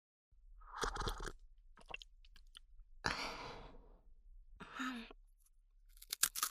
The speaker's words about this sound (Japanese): ああ、今度はお茶菓子まで、 おせんべい美味しいよ。